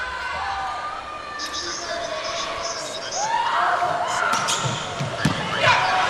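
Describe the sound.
A volleyball serve in an Iran versus Japan match at 23-all. A few sharp ball impacts ring out over arena crowd noise, and a commentator speaks throughout.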